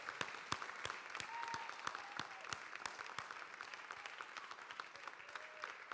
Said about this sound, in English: I would like you to give Jesus a big, huge standing ovation this morning. Could you join with me in that?